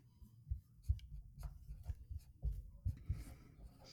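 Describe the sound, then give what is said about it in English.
Pens scratch rapidly as two people write furiously to answer a trivia quiz question: many quick, dry strokes with soft low thumps, steady and continuous with no talking. “Both writing furiously.”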